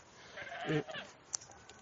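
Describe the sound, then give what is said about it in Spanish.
A goat gives a single short, wavering bleat, fairly faint over a soft background hiss, followed a little later by a brief sharp click. “eso es una cabra, lo siento.”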